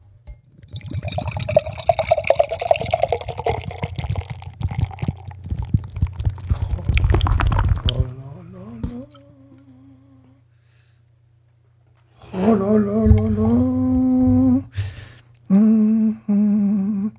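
Double Dry Hopped beer pours with a splashing, fizzing rush for about eight seconds. A few gurgling tones follow, then a quiet pause before louder sounds return.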